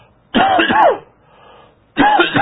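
Harsh throat clearing from a tickle in the throat: two gravelly bursts of rasping, the first made of a couple of quick pushes, then a quieter pause before another rasp begins. No talking.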